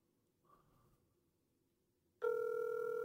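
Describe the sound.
A telephone rings on an outgoing call that goes unanswered. After about two seconds of near silence with a faint murmur, a loud, steady ringing tone starts abruptly and holds to the end.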